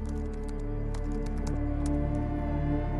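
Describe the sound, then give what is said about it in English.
Typing on a computer keyboard while entering a Google search, a quick scattered run of light clicking keystrokes over a steady sustained tonal backdrop. “Best lawyer for startups is typed into Google.”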